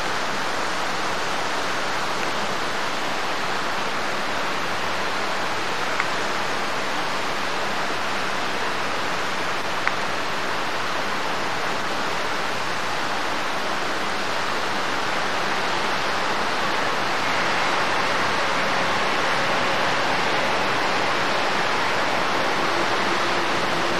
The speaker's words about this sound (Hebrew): מה שמדהים זה כל פכפוך המים.